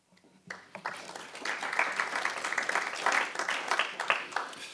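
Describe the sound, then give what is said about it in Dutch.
Modest applause from a council meeting audience: dense, steady clapping that begins after a brief quiet moment and carries on at an even level to the end. “Mag ik van u een al dan niet bescheiden applausje?”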